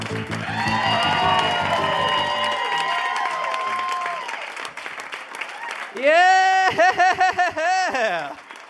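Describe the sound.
An audience at a Melbourne Comedy Festival show cheers and applauds as the hosts are welcomed on stage. A louder burst of whoops and yells comes in the final few seconds.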